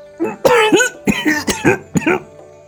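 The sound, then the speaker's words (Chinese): Choked, voiced coughing from an old court official who has just swallowed a spoonful of hot porridge, in an audio drama: a rapid series of loud coughs in uneven bursts, with no other voices. “太师拍着胸口咳嗽，因为在场所有人都在看他。”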